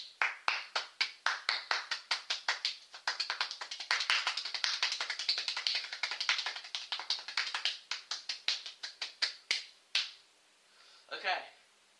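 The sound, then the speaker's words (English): Hand clapping practice to build a rhythm: crisp single claps start at an even pace, quicken into a fast, dense run, then slow again and stop, followed by a brief voice. “So when you do that, you want to clap, then you want to reverse it until you just start getting into a groove.”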